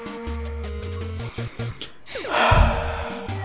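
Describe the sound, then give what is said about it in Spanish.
A deep breath drawn by a person with stage fright, rising into a breathy rush near the end. “Trataré de tranquilizarme, respirar profundamente,”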